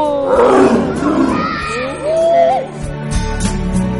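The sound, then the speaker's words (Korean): A tiger roars in deep, loud, rumbling growls that swell and fade a few times, each roar long and throaty with a heavy low end. “와 호랑이 우는 소리”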